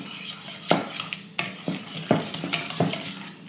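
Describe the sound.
A large metal whisk mixing tomato quiche filling in a bowl, giving many rhythmic scraping and clinking strokes against the bowl, some sharper than others, with no talk.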